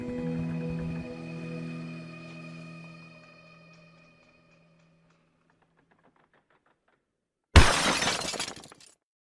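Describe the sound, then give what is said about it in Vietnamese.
A meal tray of bowls, chopsticks, rice and soup is kicked over with a sudden loud crash of shattering crockery that rattles and dies away over about a second. It follows a fading musical drone and a stretch of silence. “chị Lạ đã thấy mâm cơm bị đá một cái thật mạnh rồi bay thẳng vào góc nhà. Chén đũa cơm canh vương vãi khắp mặt đất.”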